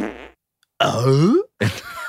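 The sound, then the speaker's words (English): A fart sound in three blasts: a short buzzy one, then a longer, louder, tonal one whose pitch climbs, then a brief rough burst to finish. “It is the fart equivalent of Tim Allen's Home Improvement.”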